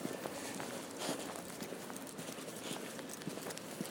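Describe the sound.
Footsteps of a person walking on pavement with a guide dog alongside a green: many steady, regular steps with a light clip-clop quality over a continuous background hiss.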